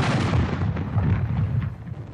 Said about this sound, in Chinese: 南军大炮打响一下又是一下，这个是行动的信号。